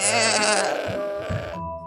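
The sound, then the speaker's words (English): A goat gives one loud, drawn-out, wavering bleat lasting well over a second before it cuts off into near silence. “It was the goat. And the goat looked at him with evil, menacing eyes and said,”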